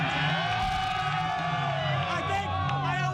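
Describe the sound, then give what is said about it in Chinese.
A crowd of fans in the capital cheers after the US team's first World Cup knockout win in 24 years, a dense continuous roar of yelling, whooping voices. “我觉得这值得我们欢呼。”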